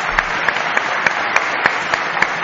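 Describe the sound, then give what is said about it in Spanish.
Audience applause inside a church: a steady patter of many hands clapping, with faint regular accents and no talk over it. “Vamos a dar un aplauso al padre por las facilidades que nos ha dado.”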